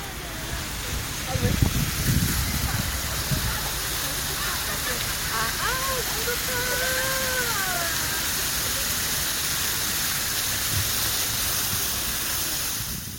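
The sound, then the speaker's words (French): The Cheonggyecheon stream flowing through central Seoul, a broad, steady rush of water that stays even throughout, with faint voices in the background. “nous quittons le marché de Chonghap et nous descendons le long du petit cours d'eau qui traverse le cœur de Séoul, Cheonggyecheon.”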